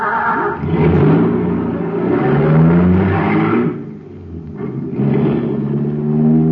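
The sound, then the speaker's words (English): A supercharged motor on high-grade fuel revs loudly in a steady, rumbling roar with swelling harmonic tones. It dips briefly around midway, then climbs back to full power. “Wow, there's a motor that's supercharged. Got super fuel in it, that's why.”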